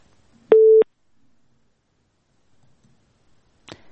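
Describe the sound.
Telephone busy tone after a caller's line is cut off during a radio phone-in: one short, steady, buzzy beep, then near silence with a faint click at the end.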